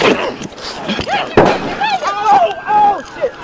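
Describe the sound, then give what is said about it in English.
A gunshot from a video being watched: a couple of sharp, loud bangs that stand out against people talking over them. “And she shoots him right in the back.”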